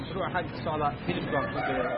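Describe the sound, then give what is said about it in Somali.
Chickens clucking and a rooster crowing at a large poultry farm in the Carmo district, a dense, busy clamor of overlapping fowl calls at fairly steady loudness. “goobta digaaga lagu xanaaneeyo ee ku taala degmada Carmo waa xarun weyn”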